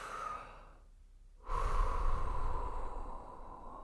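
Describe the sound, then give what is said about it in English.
A deep calming breath: a soft, airy hiss, then near silence, then a longer and louder breathy rush that holds steady for over two seconds with no talking. “Take a deep breath. Let's all take a deep breath together”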